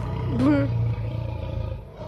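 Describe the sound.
A lion roars once, a brief throaty growl over a steady low drone.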